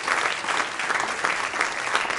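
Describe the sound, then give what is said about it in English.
A church audience applauds during a morning service, with full, steady clapping from many people that swells and eases in gentle pulses. “Let's give him a round of applause this morning.”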